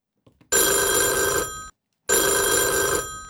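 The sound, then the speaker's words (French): A mobile phone ringing with a British-style tone: two sustained, bright tonal rings separated by a short gap, steady and fairly loud. “Adrien de la Datcham disait ça sonne comme un portable qui est en Angleterre”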